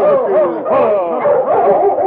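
A large tracking dog whines and yips in loud, wavering, mid-pitched cries that run almost continuously, with a few short dips between bursts.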